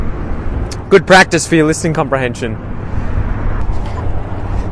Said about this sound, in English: Sorry about the noise, guys. I'm just crossing the highway, so it's probably really loud, but I'm trying to talk closer to the mic.